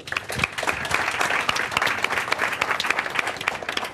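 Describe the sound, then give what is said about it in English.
An audience applauds warmly to welcome a speaker at an arts event. The dense, loud clapping holds steady for the full four seconds. “Please give a very, very warm welcome to Joe Moore.”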